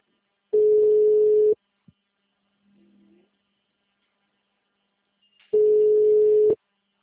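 An outgoing telephone call rings unanswered: two one-second bursts of a steady ringback tone, separated by a long silent gap. A faint click and a brief low murmur fall between the two tones.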